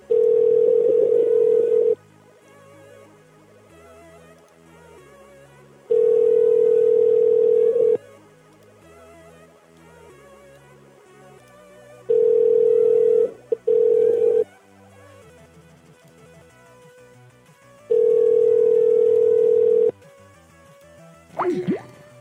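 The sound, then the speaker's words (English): A telephone ringing tone on the line: four long steady beeps of about two seconds each at regular intervals, plus one short extra beep after the third, with a faint tonal pattern between and a brief chirp at the end. “Ring, ring.”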